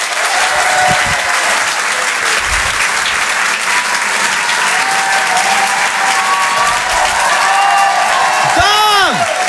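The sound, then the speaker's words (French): A comedy club audience applauds and cheers for a stand-up act. Dense, steady clapping with crowd noise runs loudly through the whole stretch, and a high whoop rises near the end. “Je vous demande un maximum de bruit, s'il vous plaît, pour Yann Guillaume.”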